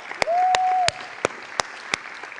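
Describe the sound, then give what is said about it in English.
A church audience claps to honour the dads on Father's Day, heard as six sharp, evenly spaced claps. A steady tone sustains briefly near the start. “Let's give all the dads a hand.”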